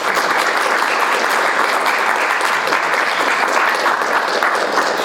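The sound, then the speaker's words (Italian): Dense audience applause for a female guest at an evening talk, many hands clapping continuously at an even, loud level for the whole stretch, with no voices over it. “proporrei un altro applauso alla nostra ospite di questa sera, Ingrid Rungalier.”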